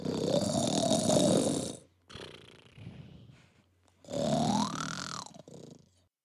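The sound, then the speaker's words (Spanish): Snoring from a man: two long, loud rasping snores with a quieter, softer breath between them. “los ronquidos del señor Walnut seguían desvelando al vecindario”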